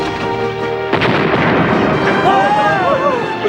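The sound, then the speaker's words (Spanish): A land mine explodes as a tank weaves through a minefield. A steady mechanical hum gives way to a sudden loud blast about a second in, followed by sustained rumbling. “Una mina estalla sin producirles daños.”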